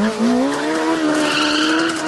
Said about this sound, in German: Vor allem, wenn man so ein Geschoss unter dem Hintern hat wie den Honda Mean Mower V2. Der Mean Mower V2 ist ein Rasenmäher der Superlative.